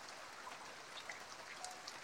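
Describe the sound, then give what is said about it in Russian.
Heavy rain falling, a steady faint hiss of water with scattered small drop ticks throughout, alone and without voices. “Дождь усилился.”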